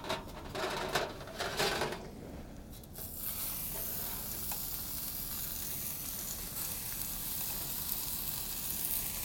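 Meat sears in a hot, preheated pan with a loud, steady sizzle. A few rougher bursts of crackle come first, then the frying hiss settles into a dense, even roar that carries on to the end.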